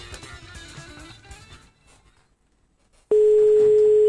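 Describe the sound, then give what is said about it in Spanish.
A telephone dial tone heard while a call is being placed: a steady, loud, unbroken tone that starts abruptly near the end, after a quieter stretch of mixed sound. “¿Estamos llamando a Maxi?”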